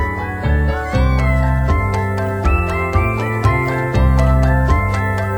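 Meowing from a young cat about eight weeks old: many loud, high, insistent meows follow one another in quick succession with no other sounds.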